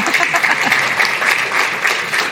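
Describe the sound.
Audience applause at a talk on county and city economic development, loud and dense clapping sustained evenly from start to finish.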